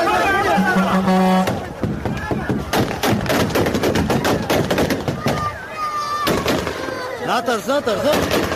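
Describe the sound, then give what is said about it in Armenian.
Loud rapid gunfire crackles in many sharp bursts beside an airport crowded with panicking people, while shouting voices rise and fall between and under the shots. “բուն օդակայանին հարող տարածքում բղավոցներ, կրակոցներ, խուճապ։”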